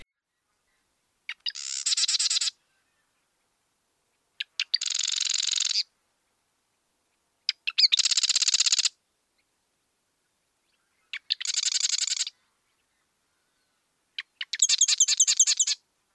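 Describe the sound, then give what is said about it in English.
A marsh wren sings five separate bouts, each opening with a few sharp ticking notes before a high, buzzy, machine-like rattling trill, with silent gaps of a couple of seconds between them. “That sound is the sound of a marsh wren, and they are often really secretive, but also noisy and curious, and their sound can be somewhat mechanical.”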